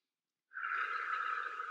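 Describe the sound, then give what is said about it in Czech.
A deep breath drawn in during a guided breathing exercise, heard alone as one steady, airy, moderately loud inhalation that begins after a moment of silence and carries through to the end. “Teď se nadechneme o trochu víc společně.”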